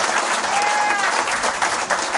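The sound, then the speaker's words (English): Audience applause at an old-time string band show honoring a Round Peak musician: a loud, continuous clatter of many hands fills the whole clip. “So give him another round of applause just for that.”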